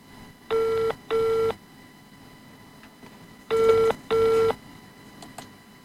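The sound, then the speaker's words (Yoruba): A telephone ringback tone on a call-in line to a radio station: two double-burst rings, each a pair of short steady buzzing tones, separated by a pause over faint low background hiss. “Splash FM láti pè yín”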